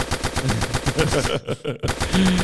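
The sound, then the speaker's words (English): Rapid automatic gunfire rattles in dense, loud bursts of many shots, breaks off briefly, then resumes just as fast and sharp. “Shots fired all day.”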